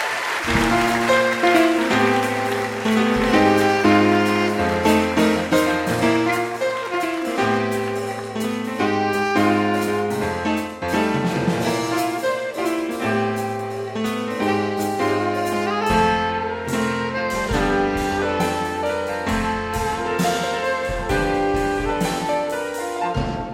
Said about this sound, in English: That was so pretty. It was. It was really, it was a lovely theme song for you.